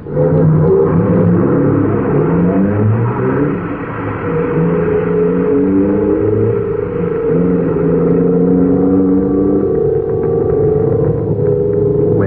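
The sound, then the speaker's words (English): Roaring engine blast of a private space cruiser lifting off, a loud continuous rumble layered with humming tones that shift in pitch, sustained without a break for the whole stretch. “a private cruiser blasts toward the Jupiter orbit”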